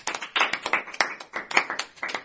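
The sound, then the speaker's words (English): Clapping from an audience applauding a DJ and rapper at a school event: many quick, separate hand claps in an uneven, loosely overlapping rhythm, moderately loud and without speech. “Please, let's give him a round of applause.”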